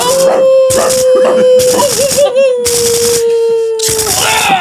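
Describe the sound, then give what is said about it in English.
Dogs howl and whine in a shooting video game, a sustained wavering cry running under several loud, sharp bursts of gunfire. “Shoot those dogs.”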